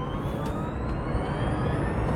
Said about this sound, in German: du darfst gerne, wir sind auf dem Parkdeck alleine, auch mal ein bisschen aufs Gas gehen.